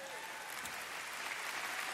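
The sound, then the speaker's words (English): A Christmas Eve audience gives faint, continuous applause and crowd noise, a steady hiss-like wash of many hands that holds at an even level throughout. “I don't know if you're cheering him or me. Or him because of me, I'm not sure, but whatever.”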